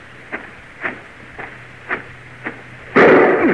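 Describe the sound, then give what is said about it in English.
A gunshot fired at a person: one sudden loud blast near the end, preceded by five soft, evenly spaced thuds. “Somebody took a shot at me.”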